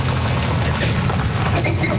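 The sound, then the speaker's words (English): Steady engine rumble and road noise from cars, trucks and motorcycles on a rural detour around a closed highway bridge. The noise is continuous and fairly loud, with no distinct pass-bys. “Cars, trucks, and even motorcycles start the detour outside Tatamagush.”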